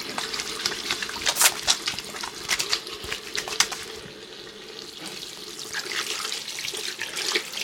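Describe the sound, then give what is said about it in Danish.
Running tap water as hands are washed under it in a studio, a steady splashing stream with brighter bursts, briefly easing off midway before flowing strongly again, with no voices. “Jeg skal lige have vasket hænder.”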